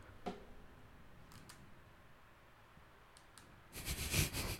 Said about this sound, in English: How do you click in this thing? Oh, okay. We have a mouse.